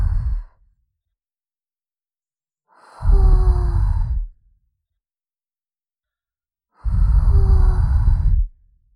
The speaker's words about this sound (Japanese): 仕上げに、 息を吹きかけて、細かい耳垢のクズを飛ばす。